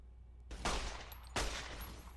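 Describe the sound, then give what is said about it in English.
Gunfire in the video game Fallout: New Vegas, heard as two sharp bursts about a second apart. Each burst has a short decaying tail, with quiet low hum between and after them. “I am really bad at free fire. I'm reasonably okay at free fire in Fallout 4 just because I've played a lot more hours of it, but pretty bad in free fire in this game. Pretty reliant on bats here in New Vegas.”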